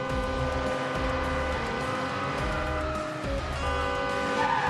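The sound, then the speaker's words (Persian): A car drives fast into a parking lot, its engine a loud, steady drone with layered tonal whine that continues throughout without a break. “اسماعیل با سرعت با ماشین توی پارکینگ میاد. امیر به ماشین اسماعیل نگاه میکنه که توی پارکینگ میاد.”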